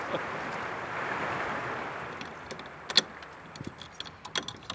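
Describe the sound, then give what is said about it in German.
Keys working the lock of a lime kiln door: a stretch of steady rushing noise, then a few sharp metallic clicks and rattles, one louder than the rest, with no voices. “Das Schloss des Kalkofens öffnet sich.”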